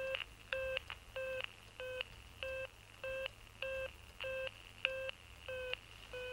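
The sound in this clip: Repeated short telephone beeps after the other party hangs up in a film scene, a steady series of evenly spaced tones over a faint low hum.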